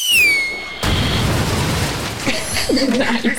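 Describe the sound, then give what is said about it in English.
A microphone dropped and hitting the floor gives a loud, sudden boom with a long, rough rumbling tail, after a high tone that falls in pitch at the start. “Go ahead and drop the mic.”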